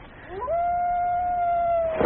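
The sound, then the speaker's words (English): A single long, drawn-out howl rises quickly at its onset and then holds a steady, mournful tone for more than a second before trailing off. “That long-drawn, wavering howl that has, for all its fearful resonances, some inherent sadness in it,”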